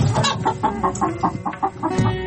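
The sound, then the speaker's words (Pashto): A hen clucking in a quick, rhythmic run of many short, throaty clucks, fairly loud and without pause. “د چرګې کغاس وه.”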